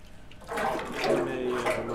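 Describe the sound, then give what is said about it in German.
Freshly mixed liquid clay for ceramic casting is poured into a tank with a stirrer, making a steady, thick watery splashing and gurgling that starts softer and then continues at an even level. “Der ist frisch angemischt und muss jetzt in einen Kessel mit Rührwerk, damit er flüssig bleibt.”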